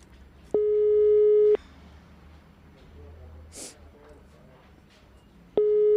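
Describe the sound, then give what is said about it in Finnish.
Telephone ringback tone plays while someone dials a call: a steady mid-pitched electronic beep lasts about a second, then a long quiet pause before the next beep begins at the very end, with faint background noise between. “Mä soitan Reijolle, se saa nyt auttaa mua tässä. Oottakaa hetki.”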